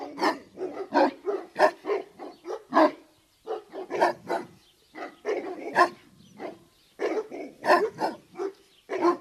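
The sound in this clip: A guard dog barks hard and hoarsely in rapid, loud bursts. Many barks come in quick clusters with only brief pauses, and there are no voices.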